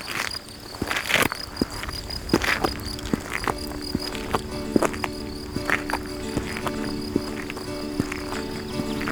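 Crickets chirp amid mountain greenery and flowers, a steady high trill running throughout. Scattered sharp clicks and taps break in irregularly over the continuous insect chorus.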